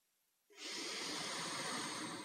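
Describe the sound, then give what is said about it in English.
Deep breath drawn in through the nose: a brief silence, then a steady, airy hiss that starts abruptly and holds evenly to the end. “Let's take a deep breath in through the nose”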